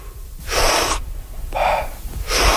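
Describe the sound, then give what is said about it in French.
Big, active recovery breaths at the water surface after a dive, with elbows resting on a buoy: three loud, airy breaths in steady succession, the last one cut off at the end. “on va prendre nos respirations de récupération. Ça va être une grande inspiration, mm-hmm, très actif et passif en expiration.”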